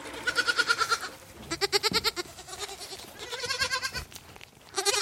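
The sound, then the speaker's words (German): Lambs and goat kids bleat in a wooden stable during lambing season, with a few quavering, nasal calls in separate bursts. The calls are fairly faint, with quiet rustling between them. “Mein Hauptjob ist es, 70 Lämmer aufzuziehen. An ihrem ersten Lebenstag füttere ich den Zicklein die Biestmilch der eigenen Mutter mit der Flasche.”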